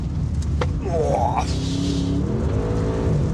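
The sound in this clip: An SUV engine accelerates in a driving video game, a steady loud drone with rising pitch sweeps as it revs, while people talk over it.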